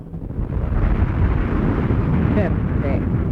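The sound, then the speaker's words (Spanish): Roaring blast of a laboratory exploding, a loud, dense, low-heavy rumble that swells and then holds as a sustained churning roar for the whole clip. “El laboratorio número 1 explotó.”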